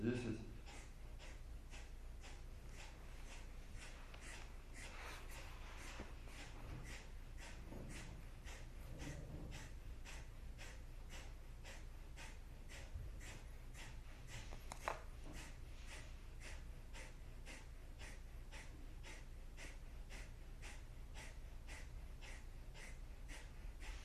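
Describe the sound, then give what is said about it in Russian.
Kapalabhati yoga breathing, with many rapid, forceful exhalations through the nose in a steady, even rhythm, each a short sharp puff, faint throughout. “Избавляйте усилия в капалабхати. Можно совсем поверхностно.”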